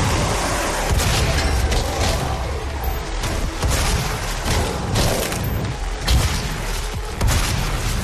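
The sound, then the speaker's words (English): Dense, loud gunfire and explosive blasts from a fast-paced demon-fighting first-person shooter video game, continuous and chaotic for about eight seconds with no talk. “Lots of shooting, lovely. Lots of demons roaring.”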